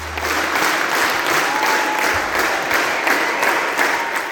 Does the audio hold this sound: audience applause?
yes